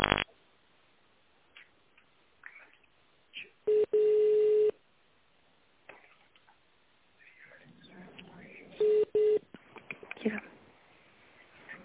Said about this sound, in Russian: Если вы знаете внутренний номер сотрудника, наберите его в тональном режиме.